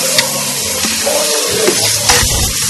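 A toilet flushing in a smelly washroom gives a continuous rush of water noise throughout, with small clattering bursts scattered through it.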